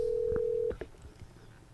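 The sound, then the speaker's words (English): A telephone being dialled: a steady tone lasts under a second, then a few short tone bursts follow, fairly faint and with no voices. “Give him a call. Calling him right now.”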